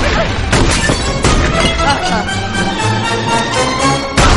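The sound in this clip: Shotgun blasts fired up through a ceiling in a 2007 animated comedy film: a few sharp, booming bursts spaced through a dense, busy soundtrack, the last one near the end.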